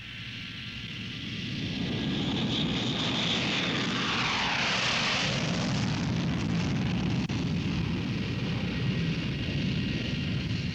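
Military Air Force aircraft roar during an air strike, swelling over the first two seconds into a loud pass with a falling pitch sweep near the middle, then a sustained heavy rumble.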